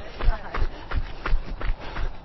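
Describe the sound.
Jogging footsteps during a workout warm-up make steady, rhythmic low thuds that repeat evenly throughout.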